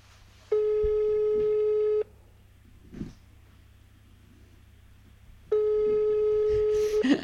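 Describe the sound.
A telephone busy signal sounds in two long, buzzy tone bursts, each lasting about a second and a half. Between them is a quiet gap with faint scattered noises.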